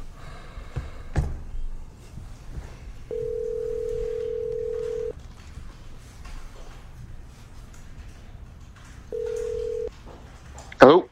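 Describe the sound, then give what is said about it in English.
A telephone line tone sounds while someone is being called: two steady single-pitch tones, the first about two seconds long and the second shorter, over a low background, with a brief louder clatter at the end. “Dial Mike up, see if he's around.”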